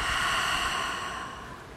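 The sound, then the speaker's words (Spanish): A deep exhale through the mouth during a guided breathing exercise makes a steady, airy rush that slowly fades over its length, with no voice. “vas a tomar una inhalación profunda por la nariz. Exhalar por la boca, liberando.”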